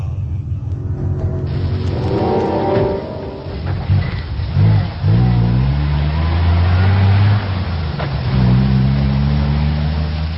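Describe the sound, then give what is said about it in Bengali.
A car engine drones steadily beneath low, rumbling tones as the vehicle drives and accelerates, its pitch shifting with throttle changes. The sound is loud and continuous with no voices. “Rafiq আর রবিন সাহেব রওনা দিল আজিজ সাহেবের বাড়িতে। রফিক সাহেবের গাড়ি করে যেতে খুব বেশি সময় লাগেনি তাদের।”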